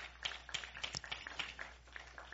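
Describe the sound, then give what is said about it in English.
A church audience claps in thanks to the Lord during a sermon, with faint, scattered hand claps in an uneven flurry that thins out toward the end. “Would you thank the Lord with a hand clap right there?”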